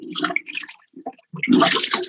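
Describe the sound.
A toilet flushed by a child gives short bursts of rushing water, a brief lull, then a louder surge of gushing, splashing water that carries through to the end.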